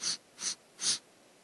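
Three short, sharp sniffing breaths in a rhythmic breathing exercise, evenly spaced and crisp, each a quick hissy puff of air with quiet pauses between.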